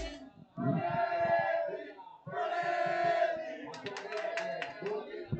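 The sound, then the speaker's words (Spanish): Members of an Atlético de Madrid supporters' club in Torrejón de Ardoz chant during a match. Two sung phrases from the group are followed by sharp rhythmic clapping. “Ojo a la afición, escuchen la afición, que aquí la Peña Atlética.”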